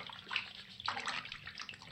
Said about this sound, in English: Take off your robe and get in. Oh, it's too hot. Oh, it's gonna boil my skin. It has to be hot. Take a couple of slugs and get in there.